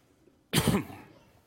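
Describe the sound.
A single short, sharp cough bursts out, then quickly trails off into quiet.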